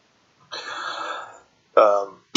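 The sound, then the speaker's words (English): Grumpy throat clearing performed by a voice playing a role-play character: a long, gravelly, voiced rumble followed by two shorter, sharper bursts, the last one clipped off abruptly. “He kind of clears throat at that a little bit, but grumpily so.”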